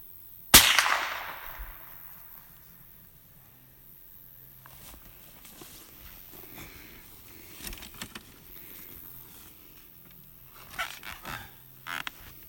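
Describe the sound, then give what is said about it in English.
A single sharp gunshot from a scoped gun cracks loudly near the start and fades quickly, followed by quiet with a few faint knocks and clicks toward the end. “See where I'm shooting. Do another shot.”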